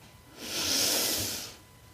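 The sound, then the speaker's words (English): A deep breath drawn in, a soft, airy hiss that swells over about a second and then fades, alone over a faint background. “Take a deep breath.”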